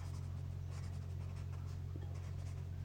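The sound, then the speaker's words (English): Pen writing on paper, faint continuous scratching strokes over a steady low hum. “I'm writing it down, boy.”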